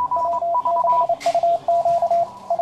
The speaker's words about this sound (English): What you're hearing is a dead language, at least for most official uses. It's the Morse code, a binary digital system that dates back to the mid-19th century.